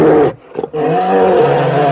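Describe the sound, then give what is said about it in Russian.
A bear roars loudly and deeply. The sound stands for the forest master waking from winter sleep in a Slavic spring rite. A rough roar breaks off briefly near the start, then a sustained, growling roar holds steady to the end. “Сова! Открывай! Медведь пришел!”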